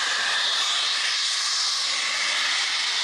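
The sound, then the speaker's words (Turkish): High-pressure natural gas blasts from a pipe punctured during work in Başiskele, Kocaeli. It makes a loud, unbroken, high-pitched hissing roar that stays steady and strong from start to end, with no other sounds. “Doğalgaz borusu delindi, gaz metrelerce havaya yükseldi.”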